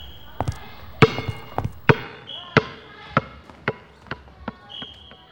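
A ball bounces in many sharp, hard knocks at an uneven pace, some close together and others spaced apart.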